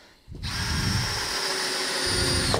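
A power drill drives a pan head screw, starting with a sharp spin-up into one loud, sustained, high motor whine that runs steadily for about two seconds before stopping.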